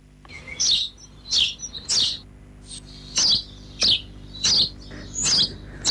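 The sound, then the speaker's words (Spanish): A sparrow sings in a series of many short, bright, high chirps, each a quick sharp burst separated by brief pauses, fairly loud and alone. “Vamos a escuchar el canto del gorrión.”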